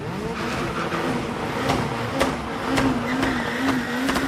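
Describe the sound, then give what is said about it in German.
Drag racing car spinning its tires on sticky asphalt before the start: a steady, loud engine roar with a droning, slightly wavering tone and a few sharp crackles throughout, with no voices. “Vor dem Start lassen sie die Reifen auf dem klebrigen Asphalt einmal so richtig durchdrehen, auf das sich Gummi und Gummi vermählen.”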